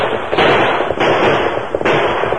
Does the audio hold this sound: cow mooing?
no